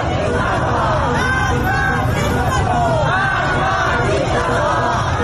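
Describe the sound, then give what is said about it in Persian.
Young protesters on a Tehran street chant slogans while holding hands in a circle. Loud crowd voices and shouting rise and fall over a continuous street babble. “معترضان جوان دست یک دیگر را گرفتند، حلقه بستند و شعار مرگ بر دیکتاتور سر دادند.”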